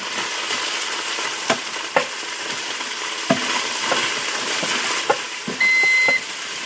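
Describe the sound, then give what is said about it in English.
Leeks and onions fry in a pot with a steady sizzle as they are stirred, a few sharp scrapes and clanks cutting through, and a short electronic beep sounds near the end. “They're even in the pot, and I'm going to Give them a stir.”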